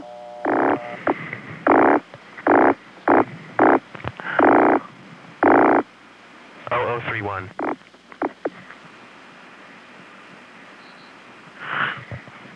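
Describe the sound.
Touch-tone telephone dialing on a phone line, a rhythmic string of several steady dual-tone beeps, followed by a few shorter warbling line tones and a faint chirp near the end.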